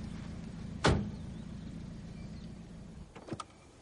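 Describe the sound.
A car door opens as someone steps out: one sharp latch click, then a few faint knocks and rattles near the end over a quiet, low background rumble.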